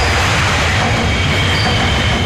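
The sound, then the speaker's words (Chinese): Loud, continuous roar of a Wuhan Metro Line 1 train passing overhead on an elevated bridge approach, with heavy steady rail rumble and rushing noise throughout and no voices. “地铁1号线列车从头顶呼啸而过”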